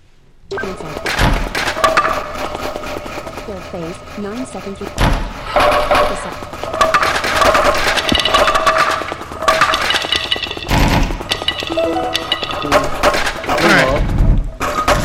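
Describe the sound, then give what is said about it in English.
Gathering wood in a video game, heard as a few sharp cracking thunks of chopping spaced several seconds apart, with a person talking continuously over them. “Now the attack phase begins, but I can still gather wood.”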